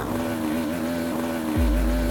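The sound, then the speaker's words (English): A two-stroke motorbike engine runs as a steady, buzzing drone; the bike has no power and cannot change gear. A deeper low rumble swells in near the end. “I'm not even sure if this bike will make it. Can't even change gear.”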